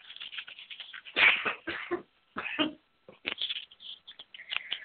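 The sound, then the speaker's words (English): A person clears their throat repeatedly before speaking: a run of several short, raspy, breathy bursts, some stronger than others, with brief pauses between them. “sorry about my throat needing clearing because it does need clearing to say what I'm about to say”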